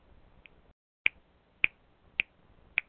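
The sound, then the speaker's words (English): Finger snapping stands in for one-hand applause: a faint snap is followed by four loud, crisp snaps at an even rhythm, with quiet pauses between them. “That's the sound of one hand applauding. Since I only have one hand, it's a snapping of the fingers.”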